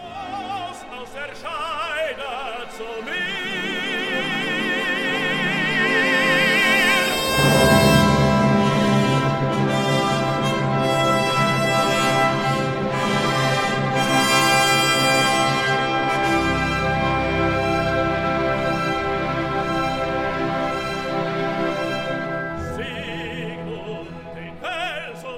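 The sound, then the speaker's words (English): Dramatic orchestral sword motif from an opera, marking the moment a sword is pulled from a tree. A full, loud orchestral passage plays throughout, swelling strongly around the middle and holding rich sustained harmonies before easing slightly toward the end. “And then there's this huge dramatic leitmotif as he pulls the sword out of the tree. And it is the sword motif. And it sounds like this.”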